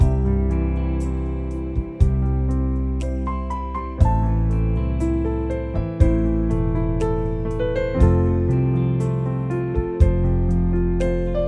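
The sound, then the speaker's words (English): A Clavinova keyboard plays a melody while its automatic accompaniment adds chords and a deep bass line, with fresh chord attacks landing about every two seconds in a steady, full-bodied groove. “And when I start playing the keyboard, like I said, the Clavinova is going to figure out what I'm playing and back me up with the appropriate chords and bass lines in the background, like this.”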